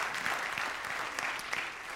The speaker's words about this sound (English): Go ahead, give the Lord a big clap.